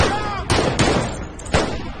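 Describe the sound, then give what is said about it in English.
Gunfire exchanged between shooters in a shootout near a truck: three sharp, loud bangs ring out at uneven intervals over a constant rough background noise. “Jacob fires back. Bullets fly between them.”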